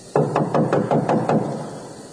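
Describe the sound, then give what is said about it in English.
Knocking on a house's outer entrance door: seven sharp, evenly spaced knocks in quick succession, fairly loud, with a short fading tail after the last one. “Peter knocked at the outer entrance”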